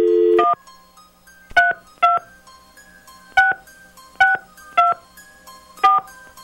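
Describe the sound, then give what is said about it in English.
Telephone keypad tones from a number being dialed at random: a brief opening tone, then six separate DTMF beeps at uneven spacing, sharp and clear, with no talk. “Dialing at random.”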